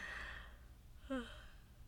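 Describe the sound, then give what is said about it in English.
A faint, breathy yawn: soft airy exhalation that thins out, then a short voiced squeak in the middle before the breath trails off quietly. “those yawns as an agreement with me.”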